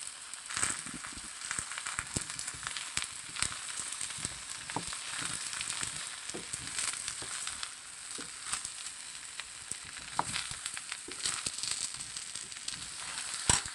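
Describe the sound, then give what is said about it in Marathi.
Stuffed eggplants and potato slices fry in a pan with browned onion, giving a steady, fairly quiet sizzle dotted with many sharp crackles and pops throughout, with no talk. “की त्याच्यात आपण stuff केलेली वांगी टाकायची आहेत बटाट्याचे काप घालायचे आहेत”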